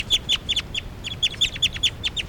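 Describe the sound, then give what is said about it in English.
A numbered bird calls loudly on a recording, giving many sharp, high chirps in an uneven, rapid series over a low, steady background rumble. “Now all the birds are calling stuff. It's a recording, this is bird 383 calling loud.”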